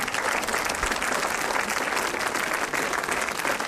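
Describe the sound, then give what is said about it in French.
An audience gives a dense, sustained ovation as an actor joins a director on stage at a film event. The clapping is loud and even throughout, without a break. “L'ovation quand Omar Sy a rejoint Éric Toledano sur scène avant d'échanger avec le public.”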